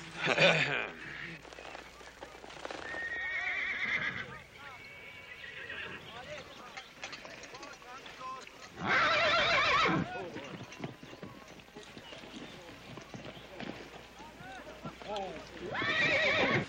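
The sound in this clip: Horse at a riding lesson neighing loudly three times, at the start, midway and at the end, with softer clopping hooves and snorting between the whinnies.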